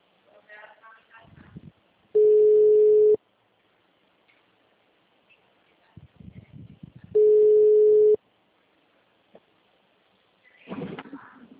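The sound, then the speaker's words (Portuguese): Ringback tone on an outgoing phone call: two steady, mid-pitched beeps of about one second each, roughly five seconds apart, with short stretches of talk and background noise in the gaps. “Tô ligando pra nesse momento.”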